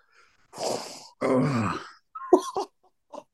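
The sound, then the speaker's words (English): Long, drawn-out human groans: two sustained, moaning vocal sounds, then a few shorter, clipped vocal bursts. They are moderately loud and contain no words. “And to be honest, that groan there probably tells you everything.”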